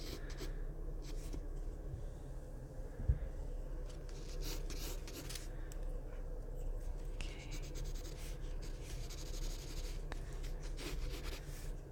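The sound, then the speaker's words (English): Pencil scratching on paper as an artist sketches a chair from a live model: soft, continuous rubbing strokes, faint and steady, with one brief sharper tap. “Just working in your proportions and drawing the chair.”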